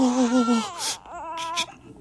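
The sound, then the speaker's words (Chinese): A baby cries after being found left in a red bundle at a doorway. One long wailing cry slides downward in pitch, then a second, shorter cry follows, loud and alone. “孩子，这怎么放门口了？哎， 不哭不哭，不哭不哭”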